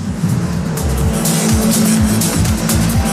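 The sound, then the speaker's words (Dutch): A long line of saloon stock cars races past during a stock car race, their engines roaring loudly and continuously, with repeated falling engine tones as car after car goes by. “Een lang lint van Saloonstocks hier voor mij langs.”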